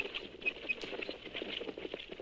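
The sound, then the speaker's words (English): A radio drama sound effect of a horse-drawn stagecoach approaching: a rapid, faint patter of hoofbeats and rattling runs steadily throughout. “As the man heard the stagecoach approaching”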